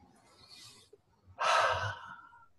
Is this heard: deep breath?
yes